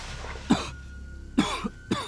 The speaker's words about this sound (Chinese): 棺木里竟也传来动静，身体挪动的声响，以及沉闷的咳嗽声。